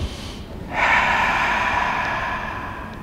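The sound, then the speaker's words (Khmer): One long, deep breath drawn in during meditation, starting with a sharp, snort-like rush of air and then holding as a steady, airy hiss until the end. “យើងដកដង្ហើមចូលវែងវែងឲ្យបានបីដង”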